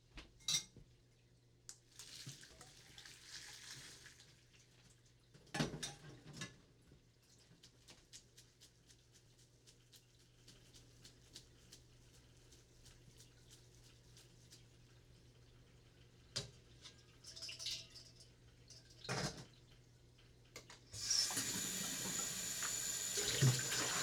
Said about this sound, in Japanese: 穴あきボウルに入れておいて、少し冷やしておかなきゃ。